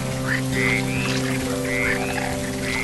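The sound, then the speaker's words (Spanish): Frogs croaking in many short, rasping bursts at an irregular rhythm, heard over a steady low hum. “Canta la rana debajo del agua.”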